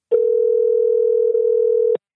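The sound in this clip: A telephone dial tone sounds as a call is placed: one steady, unbroken hum at a single pitch lasting nearly two seconds, then cutting off abruptly. There is no talking.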